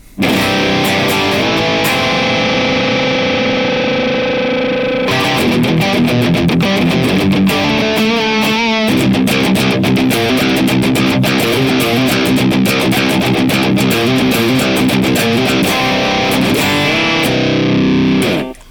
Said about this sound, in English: 412 Marshall Silver Jubilee loaded with vintage 30s. That sounds like this.